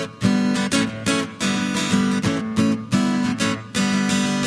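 Acoustic guitar playing a rhythm verse riff that moves from an A chord to a G chord: steady strummed chords with sharp accented attacks in a repeating pattern, heard alone with no voices.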